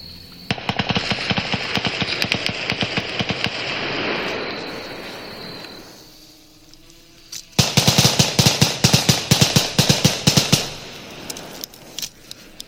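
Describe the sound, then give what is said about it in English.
Rapid rifle gunfire during a police evacuation of residents: many loud, sharp shots crack in quick succession in two long volleys, split by a brief quieter lull. “Multitude of shots fired.”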